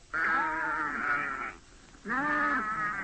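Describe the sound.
Goats bleat as they are called together: two long, wavering, nasal bleats separated by a short pause, loud and clear with no talk.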